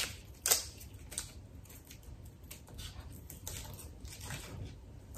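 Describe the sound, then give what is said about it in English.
A knife cuts an onion in half, with one sharp crisp crunch near the start, followed by many soft crackling, scraping rustles as the papery skin is peeled away. The sounds are quiet and continuous, without talk. “Now I'm going to cut my onion in half. I'm going to peel the skin.”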